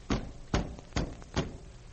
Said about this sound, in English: There was a terrible pounding on the door.